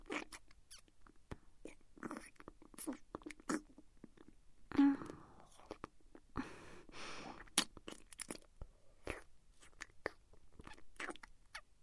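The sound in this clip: Crunchy food being bitten and chewed, with many sharp, dry crunches in an irregular rhythm, quiet overall.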